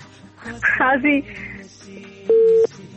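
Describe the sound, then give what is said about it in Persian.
Telephone line tone after a caller's line drops during a song request: speech comes first, then a single loud, steady mid-pitched tone holds briefly before cutting off. “خب تماس دوست ما قطع شد و آهنگ دومیشان که انتخاب میخواستن بکنن ما نفهمیدیم.”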